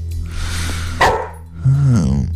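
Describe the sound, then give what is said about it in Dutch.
A dog barks: one short, sharp bark, then a higher yelping call, over a noisy background. “Je kunt je niet omdraaien of dat ding begint dan weer te blaffen.”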